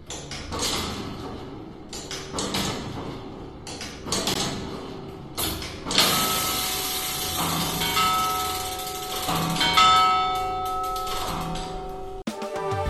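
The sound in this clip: The old clock mechanism in Pliego, Murcia, clanks and creaks in a series of repeated mechanical knocks. The sound then turns into a denser, sustained wash with ringing bell tones, cut off by an abrupt drop near the end.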